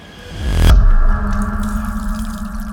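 Tap water runs as someone washes their hands in a drama scene. A rushing flow swells to a peak, then settles into a steadier stream.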